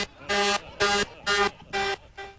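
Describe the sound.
A tractor-trailer truck horn sounds five loud, buzzy, low blasts in a steady rhythm. The first four are evenly long, and the fifth is shorter and fainter.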